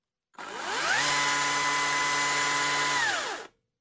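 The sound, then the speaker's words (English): A battery-powered lithium chainsaw, notably quiet, spins up with a rising electric whine, holds a steady high-pitched hum for about two and a half seconds, then winds down with a falling pitch before cutting off. “And to just give you an idea how quiet this non-toy chainsaw is,”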